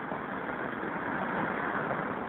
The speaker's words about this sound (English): It's my favorite kind of payphone. Like out in traffic, practically in traffic, right on the curb. Northern Boulevard and 41st Street.